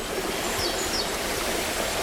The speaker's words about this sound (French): L'eau ruisselle.